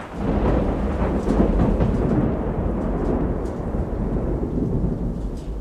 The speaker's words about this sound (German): Das Unwetter brach los mit aller Macht, als wir buchstäblich in letzter Sekunde den Hafen von Bastia